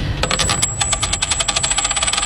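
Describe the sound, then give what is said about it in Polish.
A coin toss in a game show for prize money: the metal coin rattles and clinks in rapid, repeated pulses over a steady high metallic ring. The sound is loud and heard alone. “To rzut monetą.”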